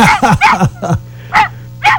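A small dog barks in short, high-pitched yips: a quick cluster of barks at first, then a few more spaced apart, loud and clear with no talking over them.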